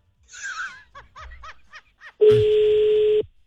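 Telephone dialing sounds: a few short breathy chuckles, then a single loud, steady electronic telephone tone that holds for about a second before cutting off.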